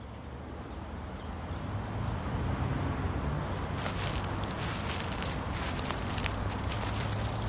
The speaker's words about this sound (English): And we walk along the pathway here.